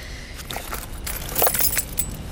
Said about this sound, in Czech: Mohl bys mi najít v kabelce klíč od dveří?